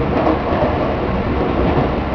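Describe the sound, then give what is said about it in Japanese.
Joban Line commuter train running, a loud, steady rolling rumble with a dense rattle of wheels and carriages, even throughout with no voices. “乗車ありがとうございます。この列車は常磐線上り電車の上戸行きです”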